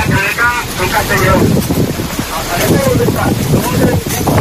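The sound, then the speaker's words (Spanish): Strong wind gusts batter the microphone during night firefighting at the Les Useres forest fire, a loud, continuous roaring rush with surging bursts, and faint voices briefly audible early on. “Son los trabajos de los bomberos durante esta pasada noche, en las que puedes incluso escucharlo. Las fuertes rachas de viento, como te cuento, han sido el gran inconveniente que se han encontrado esos servicios de extinción.”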